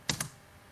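A computer keyboard key is pressed, making two sharp, light clicks a split second apart, followed by quiet.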